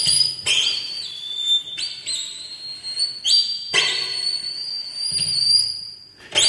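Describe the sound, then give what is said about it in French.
Shrill high whistling, meant as a singing mouse's unsettling whistle, sounds alone as several piercing tonal bursts with sliding, wavering pitch. “Son sifflement est plutôt décrit comme particulièrement malaisant.”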